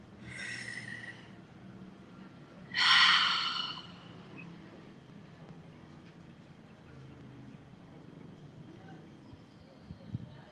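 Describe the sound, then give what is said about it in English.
A deep breath in and out, heard as two soft, airy breath sounds about two seconds apart, the second louder and sharper. A faint low hum continues in the quiet that follows. “So I invite you now to take a nice deep breath with me.”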